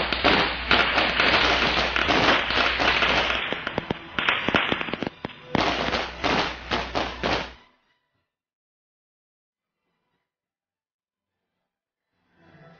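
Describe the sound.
Firecrackers explode in a dense, loud string of many sharp cracks for about seven seconds, then cut off abruptly into silence.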